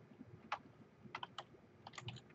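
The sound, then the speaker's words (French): Quiet typing on a computer keyboard while entering text in a storage account name field: a few short bursts of light, crisp key clicks separated by brief pauses. “Donc, si je tape test, stockage comme ça.”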